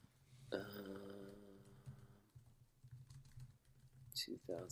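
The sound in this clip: Rapid, light keyboard clicks from typing on a computer keyboard, with a low droning voice heard early on before the clatter of keystrokes continues.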